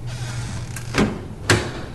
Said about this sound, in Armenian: Երբ բացեցին դուռը,